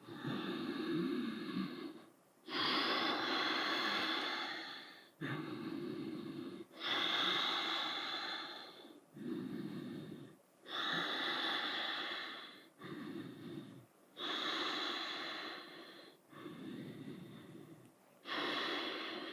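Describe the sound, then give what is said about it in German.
Ujjayi breathing during a Vinyasa yoga flow, drawn through a deliberately constricted throat: many slow, steady, loud hissing breaths alternate in and out with brief pauses between, with no speech. “Atme hier auch gerne in Ujjayi-Atmung, falls du damit vertraut bist. Verenge ganz bewusst die Stimmritzen und lasse deinen Atem ein- und ausströmen.”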